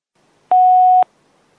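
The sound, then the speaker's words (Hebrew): A voicemail beep sounds on a phone call: a single clean electronic tone, loud and steady for about half a second, with silence on either side. “השיחה המועברת לתא הקולי. הגעתם לתא הקולי.”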